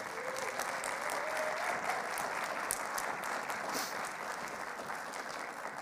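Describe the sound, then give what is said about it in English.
Audience applause for a newly married couple, a steady, even wash of many hands clapping that keeps going at a constant level for about six seconds with no voices over it. “Can we have a big hand for them?”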